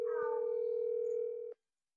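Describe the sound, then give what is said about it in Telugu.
A telephone tone as a call is placed: one steady, unbroken tone lasting about a second and a half, then cutting off abruptly into silence. “So let's call her.”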